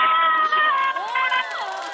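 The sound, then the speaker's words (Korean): A family of four, parents with middle- and high-school-age children in a car heading off on vacation, shout together with excitement in one sustained, overlapping burst of loud voices. “자, 네 명 다 소리 질러. 와!”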